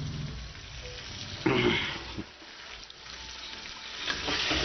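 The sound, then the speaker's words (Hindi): Mutton sizzles in a pan with browned onions, a faint steady frying hiss broken by one brief louder burst of stirring near the middle. “ये हमारी प्याज brown हो रही है। बस इसके बाद अब हमने इसमें ब्राउन प्याज हो चुकी है और ये मटन डाला।”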